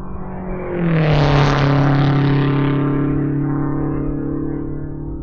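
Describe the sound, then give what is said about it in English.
A race car engine roars during time trials at the Indianapolis Motor Speedway in 1957. The loud, droning whine swells quickly, holds steady, then slowly eases, and its pitch drops early on. “This is Sunday, May 26th, 1957, and this is the Indianapolis Motor Speedway. These are the time trials.”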